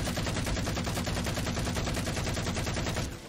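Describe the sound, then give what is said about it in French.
A huge burst of automatic gunfire as a sound effect in the tabletop role-playing game Eclipse Phase. Rapid, evenly spaced shots stay loud for about three seconds, then stop abruptly. “Il touche. Tu vois qu'il balance une énorme rafale.”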